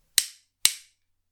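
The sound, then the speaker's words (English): Gunshots during a tense armed confrontation: two sharp, loud cracks about half a second apart, each with a quick fading tail, followed by silence. “I especially don't like being shot by terrorists.”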